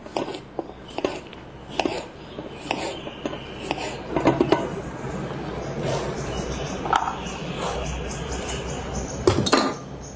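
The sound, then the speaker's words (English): Knife taps on a board as a Japanese cucumber is chopped into squares for a fruit salad: many uneven, fairly quiet knocks and light clinks in an irregular rhythm. “I'm going to chop it also the same like those into squares.”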